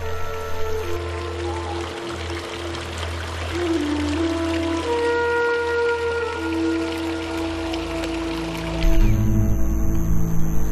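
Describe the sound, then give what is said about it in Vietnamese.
Water flows and splashes from a fountain fed by a restored Moorish water system, a steady rushing pour that grows louder toward the end. “Bạc lòng của đài phun nước lại chảy một lần nữa.”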